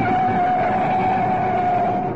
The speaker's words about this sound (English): Nice driving. Now you've got a clear run down Oxford Road. Step on it.